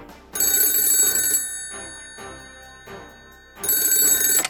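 A telephone rings in two loud bursts of bright, trilling bell tone, with quieter ringing sound in the gap between them. No one speaks.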